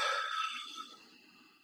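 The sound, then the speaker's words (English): A deep breath, heard as a single soft, breathy rush of air that starts fairly strong and gradually fades over about a second and a half, faint and alone. “and then just uh, like a deep breath in and out.”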